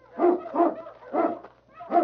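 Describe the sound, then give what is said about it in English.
A large dog barks and whimpers while sniffing through snow near rocks: four short, tonal yelping cries in an uneven rhythm, fairly loud, with no talk. “But as they neared the rocks, the great dog King sensed death in the air.”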